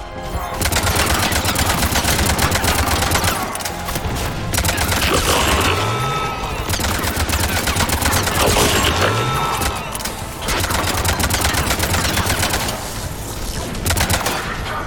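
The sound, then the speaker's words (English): Video game gunfire as the player shoots at a robot: loud, rapid bursts of shots that run for long stretches, broken by a couple of brief pauses. “Oh, this is interesting. The robot doesn't seem to mind me shooting at it.”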